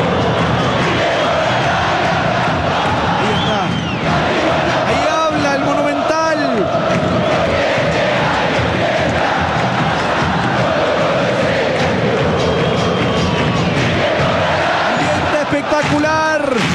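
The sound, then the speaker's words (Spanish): Football crowd at Estadio Monumental in Macul during Colo Colo's 4-1 win over Audax Italiano, a continuous loud roar of fans cheering and shouting, with voiced chant-like tones rising and falling throughout. “El ambiental de Germancito Muñoz, del público acá en el Monumental, en Macul, en esta victoria 4-1 de Colo Colo sobre Audax Italiano.”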